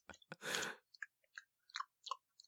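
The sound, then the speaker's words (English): Wet mouth sounds of someone licking and tasting something: one louder smacking burst near the start, followed by a string of small, faint clicks and smacks spread over the next two seconds. “Right, I'll give this a lick. Live on air.”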